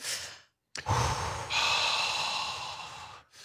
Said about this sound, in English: we're going to all join together and hold hands and take a collective cleansing breath.